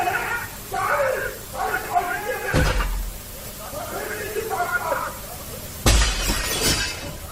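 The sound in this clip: A window glass pane shatters in two sudden, loud crashes, each a bright burst of breaking glass that tails off in tinkling shards. People talk in the gaps before and between the crashes.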